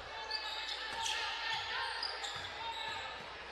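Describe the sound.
A basketball is dribbled on the court during a game, giving a series of soft low thumps in an uneven rhythm under a steady, fairly quiet background wash.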